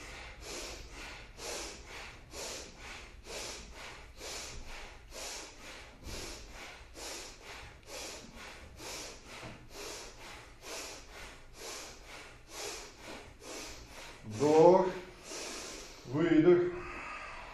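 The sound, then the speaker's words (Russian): Bhastrika bellows breathing from a yoga breathing exercise: a long, even run of rapid, forceful puffs chugging like a steam engine, followed by two louder, voiced exhalations at the end. “представьте себе, что у вас там вот паровоз такой здесь, вот он будет пыхтеть здесь. Поехали, бхастрику.”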